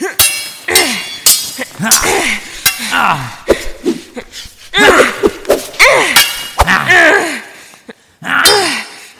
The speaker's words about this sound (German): Minutenlang schlugen die Schwerter aufeinander ein,